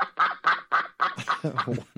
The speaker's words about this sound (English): one hour of duck sounds.